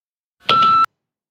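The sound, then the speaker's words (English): A single short electronic beep, one steady tone lasting under half a second, sounds alone against silence. “One ping only. Shouldn't have wasted all those beeps earlier”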